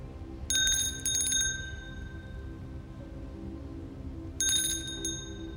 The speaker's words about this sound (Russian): Царица звонит в колокольчик.